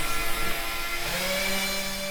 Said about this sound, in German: Gerade schraubt der Schauspieler, Autor und Regisseur eine Spanplatte auf eine Stellwand.